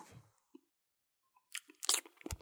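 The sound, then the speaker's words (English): A crunchy, salty snack is bitten and eaten by a bird with its beak. After near silence come a few sharp, crackly crunches, and a quick cluster of louder crunching bites closes the stretch. “he ate one. And it was crunchy.”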